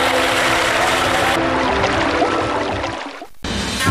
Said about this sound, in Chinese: 好，让水不断地往进灌，大概在喉咙这个位置，稳住身形，